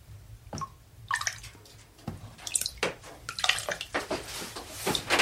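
Water ladled from a wooden bucket onto hot sauna stones at night gives a run of irregular splashes and crackling, hissing sizzles, with no talk.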